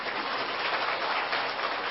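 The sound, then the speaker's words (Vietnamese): Brief audience applause at a Buddhist dharma talk about death, an even, dense patter of many hands that sounds almost like rain and holds steady through the short burst. “Nói chuyện chết mà vỗ tay là kỳ vậy.”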